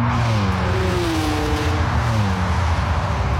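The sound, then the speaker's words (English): Car driving on roads in Germany: a loud, continuous engine drone with a wavering pitch, steady throughout with no voices. “Never going to get used to driving in Germany.”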